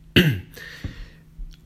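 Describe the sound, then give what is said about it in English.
Throat clearing from someone who is losing their voice: one sharp, rough burst, followed by fainter throaty rasps, with no talk. “sorry, I've been losing my voice the last couple days, so I'm going to be clearing my throat a lot throughout this episode”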